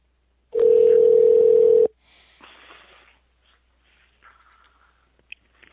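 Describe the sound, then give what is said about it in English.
A telephone dial tone sounds as one steady, loud, unbroken tone lasting about a second and a half, then stops, followed by a few faint clicks and rustles. “Dialing.”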